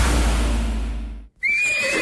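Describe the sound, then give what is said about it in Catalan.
A horse neighing, used in an advertisement for a riding school's summer camp in a natural setting. A stretch of broad noise cuts off into a brief gap, then a sustained high-pitched whinny rings out to the end. “Si vols un campus diferent, envoltat de natura i en contacte amb els cavalls, vine al campus d'estiu d'Hípica Equitor.”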